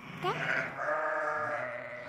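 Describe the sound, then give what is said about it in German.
A small boy imitates sheep bleating: a short quavering cry, then a longer, sustained, wavering bleat at moderate loudness, with no other talk. “Er macht auch schon Schafgeräusche. Auch dieses. Wenn er Schafe sieht, immer erstmal Geräusche machen.”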